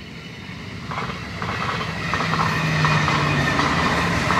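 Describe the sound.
A train passes on a railway line running beside an open nature area, giving a steady rumble with rhythmic clatter from the wheels. It grows louder over the first half and then holds at a full, even level.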